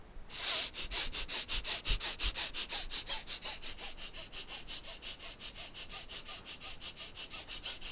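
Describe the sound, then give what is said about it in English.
Breath of fire rapid breathing exercise during a chakra meditation: many quick, evenly spaced nasal breaths pulse in a steady fast rhythm, sharp and airy, starting after a short pause and continuing without break. “So we'll do the breath of fire.”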